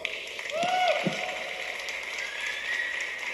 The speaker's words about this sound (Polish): Brawo, aplauz.